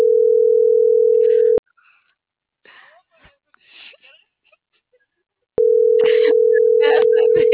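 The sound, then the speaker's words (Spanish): Ringing tone of an unanswered telephone call: two loud, steady, mid-pitched tones, each nearly two seconds long, separated by a gap of about four seconds that holds faint scattered voice and breath sounds. “Cierto, sigue sonando. No va a contestar este viejo.”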